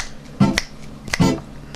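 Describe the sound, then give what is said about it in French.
A few crisp finger snaps in quick succession, each a sharp dry click with a brief skin-on-skin thump, heard alone with no talk. “En trois claquements de doigts.”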